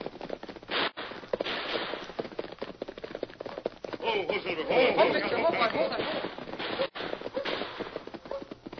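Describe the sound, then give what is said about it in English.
Gunfire in a western gunfight, with many rapid shots crackling over what sounds like hoofbeats in a dense, low-fidelity mix with brief dropouts. “We seem to have run into a gunfight.”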